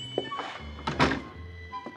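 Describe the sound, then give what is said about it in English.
A store door opens with a single heavy thunk in the middle, framed by a few softer knocks and scrapes. “I opened the door and entered.”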